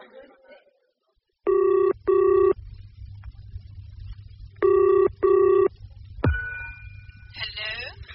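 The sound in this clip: A telephone ringing as a call is placed, in two pairs of short buzzing double rings, four bursts in all, over a low hum. A sharp click and a steadier tone follow.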